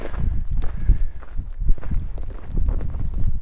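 Footsteps walking across a slope covered in small plants in the Sierra mountains: a steady series of soft, crunchy, rustling steps at a walking pace, with no talk.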